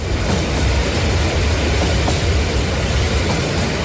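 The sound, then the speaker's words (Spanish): A last train about to depart gives off a steady, heavy rumble with a strong low end. The even noise continues without a break and no voices are heard over it. “el último tren está a punto de partir. Ocupen sus asientos.”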